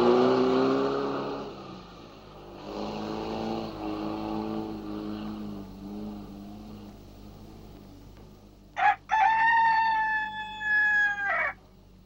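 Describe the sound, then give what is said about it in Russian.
A white rooster crows while perched on a red fuel pump at a petrol station. It gives a loud, high, harmonic crow near the end, held for a few seconds with brief breaks. “На красной бензоколонке сидит белый петух.”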